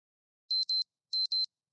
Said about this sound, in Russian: Звонит будильник, и начинается еще один рабочий день.